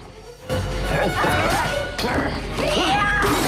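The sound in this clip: A lamp smashed over an attacker during a struggle in a horror film scene, with two sharp crashing impacts amid loud, strained vocal cries and scuffling.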